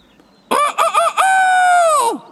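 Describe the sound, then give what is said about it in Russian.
A rooster crows loudly and alone, a few short opening notes running into one long sustained call that drops at the end. “Проходят мимо одного двора и видят: сидит на воротах петух и кричит во все горло”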